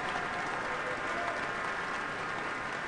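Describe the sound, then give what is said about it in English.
Applause from a concert audience and orchestra on their feet in a standing ovation after a performance, a dense, even wash of clapping that holds steady throughout with no single voice standing out. “The audience is on their feet, and now the orchestra is on their feet. Hand in hand, Stasevska and Patulidou are taking bows.”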